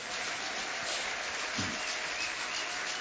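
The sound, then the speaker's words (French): Church audience applauding after a scripture reading, a sustained wash of many hands clapping at even loudness, with a brief low murmur partway through. “J'aimerais te demander d'acclamer la parole de Dieu.”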